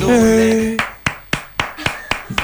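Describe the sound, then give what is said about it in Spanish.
Hand clapping as applause, a steady rhythmic series of crisp claps following a brief voice at the start, evenly spaced and fairly loud. “Y a ver esos aplausos.”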